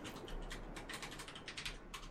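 Faint typing on a computer keyboard, many soft clicks in a quick, uneven stream over a steady low hiss.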